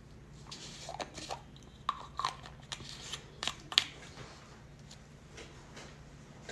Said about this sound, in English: if you have prescription pills and you don't have little kids around, you don't have to worry about the child lock. All you have to do is flip the top upside down.